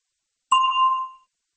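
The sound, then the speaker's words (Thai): A single bright bell ding, used as a cue before answering a quiz question, rings as one clear tone with overtones and fades out within about a second, alone in silence. “เชิญรอฟังเสียงกระดิ่งก่อนแล้วจึงตอบ”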